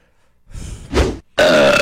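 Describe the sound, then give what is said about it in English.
A loud, rough burp from a cartoon character, breaking into a few gravelly bursts of belching with no talk around it. “Do you know whose burp that was? Yours? Nope. Famous burp.”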